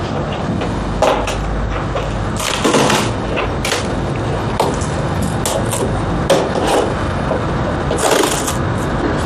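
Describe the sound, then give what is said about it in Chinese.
Packaging with foam inserts being pulled apart, a busy run of rubbing, scraping and squeaking with many sharp knocks and cracks, loud and continuous throughout. “我只是想把这个拆开，然后那个泡沫就可以一起丢出去。”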